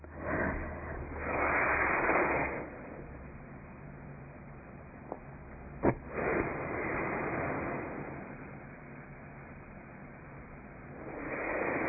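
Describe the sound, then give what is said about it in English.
Slow nasal exhalations through the left nostril, right nostril held closed, in a breathing exercise: soft, airy rushes of breath, a few separate long outflows with quiet pauses between, faint and without talk. “move our finger and close our right nostril, and breathe out through our left. And we're going to do that for three breaths.”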